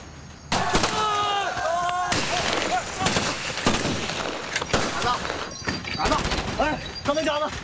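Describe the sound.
Gunfire in a shootout: many sharp cracks and bangs scattered irregularly throughout, mixed with shouting voices and clatter, moderately loud.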